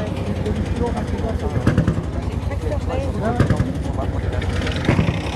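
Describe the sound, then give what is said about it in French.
A green tractor's engine runs with a rough, rhythmic low pulsing that stays fairly steady and loud, with a few stronger surges. “Un tracteur vert. Je ne sais pas, ils vont démarrer, ils le laissent.”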